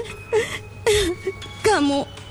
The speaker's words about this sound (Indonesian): Gak usah nangis terus deh, Bu.